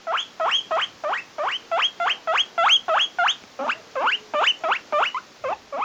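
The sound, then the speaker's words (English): A pet guinea pig squeaks in a long run of many rapid, high-pitched wheeks. Each call sweeps sharply upward, repeating at a steady, even rhythm, loud and alone. “Guinea pigs are adorable, fun, friendly, and when they talk, they sound like this.”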